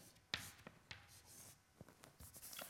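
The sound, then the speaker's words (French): Equations being written on a board during a physics lecture: faint, scratchy strokes with a few sharp taps and quick scrapes in an irregular rhythm, with no voices. “je vais les écrire ici”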